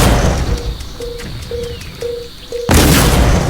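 A bomb explodes in a video game battle: five short, evenly spaced mid-pitched beeps give way to a sudden loud blast whose broad roar sustains to the end.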